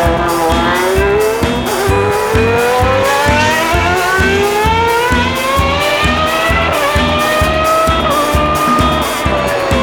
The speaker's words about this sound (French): Automobile en vue. On fait la course.